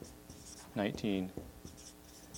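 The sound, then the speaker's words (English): A pen scratches faintly on paper as someone writes notes by hand, with quiet, scattered strokes and a person's voice heard briefly. “I'll write these all down”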